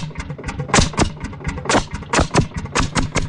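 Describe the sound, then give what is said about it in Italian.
Landini hot-bulb tractor engine running: loud, uneven chugging of sharp thumps and pops over a low rumble, the beats coming quickly but irregularly throughout. “questo è decisamente meno ascoltabile, è un Landini a testa calda. Pensate voi, un trattore sotto il quale bisognava accendere un fuoco, altrimenti non partiva.”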